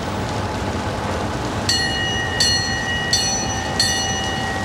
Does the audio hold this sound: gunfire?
no

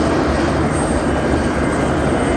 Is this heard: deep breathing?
no

